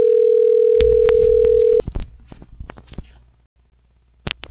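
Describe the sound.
A steady dial tone sounds for nearly two seconds while a telephone call is transferred. It cuts off abruptly, followed by scattered clicks and faint line noise, then a brief silence and a last short burst of clicks.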